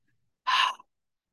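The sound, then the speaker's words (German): A single breathy huff of exhaled air, cut off partway as the mouth closes, leaving a tiny soft puff right at the end; brief and quiet, with no voice. “und haucht und auf der Hälfte des Ausatmens schließt ihr einfach den Mund. Das geht dann so.”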